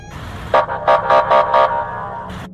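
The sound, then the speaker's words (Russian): A piercing siren sounds in a quick run of loud, pulsing blasts of a steady, harmonic tone, with a low rumble underneath and no voices. “Раздался пронзительный вой сирены из ниоткуда.”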